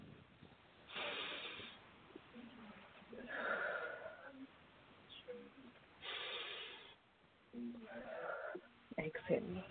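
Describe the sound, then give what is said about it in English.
Deep, slow breathing taken on instruction during a guided affirmation session: a few airy, hissing breaths in and out, each swelling and fading, with low murmuring texture between them. “And I want you to take a nice deep breath.”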